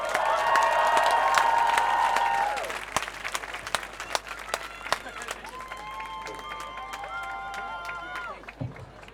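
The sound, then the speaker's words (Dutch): Crowd applause and cheering at an anti-racism and anti-fascism demonstration. Dense, loud clapping fills the first two and a half seconds, then thins to scattered claps that continue to the end. “Een warm applaus alsjeblieft voor Khalid Jonne.”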